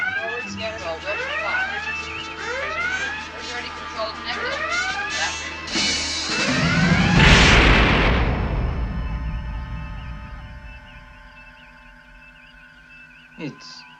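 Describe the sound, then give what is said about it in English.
Laser guns fire aboard a starship: a rapid series of bright, descending electronic zaps, then a loud explosive burst that fades into a lingering low hum, with a brief click near the end. “Gun crews, lock on target. Energy output increasing beyond measurable levels, Captain. Laser guns, stand by to fire.”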